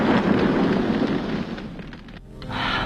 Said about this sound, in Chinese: 特工派特森却开车冲进了海里，可没等车完全掉进去，就在半空中爆炸了。